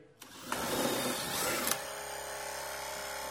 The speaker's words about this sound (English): So it's going to blow up air, and then it'll be pretty quiet. So the air is going into these two air tanks here.